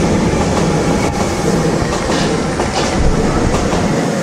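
A train passing on rails: loud, steady rumble with rhythmic clickety-clack of wheels over the track throughout, with no voices.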